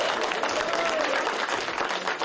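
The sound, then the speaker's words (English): Applause from a football team in the locker room after a divisional win: dense, steady clapping that stays loud from start to finish, with voices mixed into the noise. “Hey, give yourself a round of applause.”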